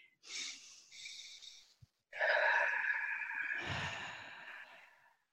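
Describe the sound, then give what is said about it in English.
A group takes a big deep breath: a quieter, shorter breath, then a longer, louder, drawn-out breath with a sighing quality, and no talking. “So let's take a big inhale, okay?”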